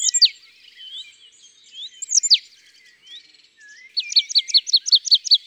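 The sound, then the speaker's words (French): Marsh tit calls: sharp, high, downward-sweeping notes that come in a few separate bursts with softer twittering between them, then a rapid, evenly spaced run of repeated bright notes at the end. No voices. “Ça, c'est une mésange nonnette. C'est son cri typique, ce pissiou.”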